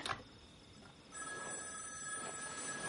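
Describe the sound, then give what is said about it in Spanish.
A telephone ringing at night, faint and electronic, with steady high ringing tones that begin about a third of the way in and continue to the end. “De madrugada, Frankie despierta en su cama.”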